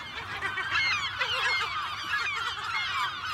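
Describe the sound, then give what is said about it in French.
Raucous cries of a colony of about 12,000 aggressive gulls nesting on a small 9-hectare island with a pebble beach. Many overlapping harsh calls form a loud, dense, continuous chorus throughout. “12 000 goélands agressifs sur une île de 9 hectares,”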